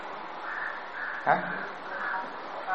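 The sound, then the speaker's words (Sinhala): A crow cawing outdoors: harsh, raspy calls with one sharper, louder burst standing out, mixed with a person speaking. “ඒ මොකුද කෑ ගහන්නේ කාක්කෙක් කෑ ගහනවා නේද”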